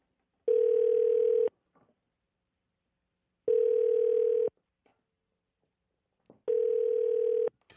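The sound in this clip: A telephone ringback tone plays while an outgoing call waits to be answered. Three steady mid-pitched tones each last about a second, separated by roughly two seconds of silence, with faint clicks after each tone.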